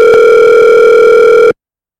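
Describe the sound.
Telephone dial tone after a hang-up: a loud, steady electronic hum that holds a constant pitch for about one and a half seconds, then cuts off abruptly into silence.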